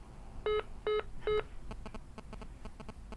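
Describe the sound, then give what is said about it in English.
Telephone keypad DTMF tones as a voicemail password is typed: three separate beeps at a steady pace, then a quick run of many shorter tones, fairly loud and clean with no talk. “Please enter your password, then press pound. Now you just type your password”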